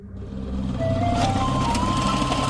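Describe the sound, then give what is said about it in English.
A truck spreads rock salt to de-ice a road: a steady, loud low engine rumble with a thin whining tone that rises slightly in pitch, plus a few brief gritty bursts. “That's the sound of rock salt being spread to help de-ice a road.”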